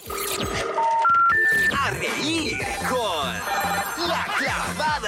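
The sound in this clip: Telephone ringing for a prank call: a short run of electronic ring tones stepping upward in pitch at the start, then people talking loudly for the rest of the stretch.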